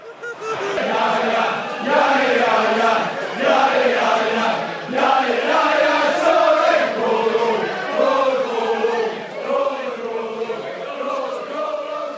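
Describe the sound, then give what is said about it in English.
A loud sting introduces a Premier League football segment: a sustained chorus of crowd voices chanting together, which rises and falls in a few swelling waves. “We're going into EPL, so hit that sting.”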